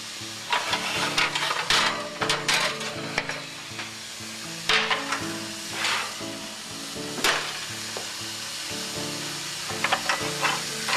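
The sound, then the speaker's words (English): A spoon stirs kasha grains in a hot pan as they sauté: gritty scraping strokes over a constant sizzle, with a few louder knocks and sweeps at irregular intervals and no voices. “And you have, the reason why you have to stir it like this several times, you don't want it to add up in clumps. You want each kernel to be separated.”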